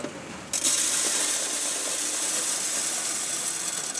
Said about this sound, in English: At a coin mint in Berlin, a machine spits shiny new euro dollars into a sorter.